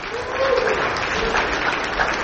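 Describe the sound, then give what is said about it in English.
A church audience claps hands together, a steady, dense wash of applause that carries on without a break at a fairly loud level. “Can you give Jesus a hand clap for His goodness?”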